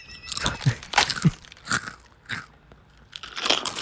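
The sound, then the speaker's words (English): Crisp crunches of kettle-cooked sea salt potato chips being bitten and chewed, a series of sharp, brittle snaps spaced irregularly with short quiet gaps between them, and no talking. “This is Miss Vicky Sea Salt original. These are very crunchy. They're kettle cooked.”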